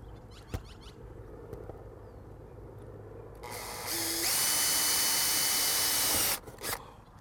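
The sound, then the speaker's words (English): A power drill bores starter holes into a roof, giving one loud, steady whirring burst of about three seconds that rises out of continuous background noise and then stops abruptly. “I'm gonna drill a couple of holes in here, as starter holes, into the roof.”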